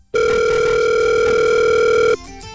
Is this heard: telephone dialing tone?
yes